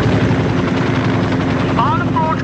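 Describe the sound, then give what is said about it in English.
A loud, steady aircraft engine roar flying overhead fills the whole stretch without letting up, and a voice briefly speaks over it near the end. “Unidentified aircraft over Bard. You're flying in controlled airspace.”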